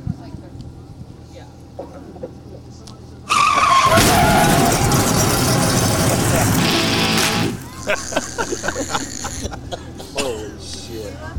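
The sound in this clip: A car crash sound effect with skidding tyres: a sharp screech bursts into a loud, noisy crash lasting about four seconds, followed by scattered clattering debris, with quieter sounds before the impact.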